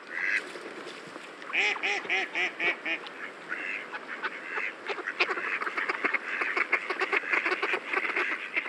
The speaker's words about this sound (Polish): kaczka krzyżówka